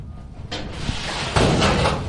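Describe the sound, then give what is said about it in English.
A storage locker door with a rusted lock is opened: a broad scraping, rattling noise begins about half a second in and grows louder after roughly one and a half seconds, then holds steady to the end. “Anyway, which key this is? Oh, this lock's a little rusted. It's been a while.”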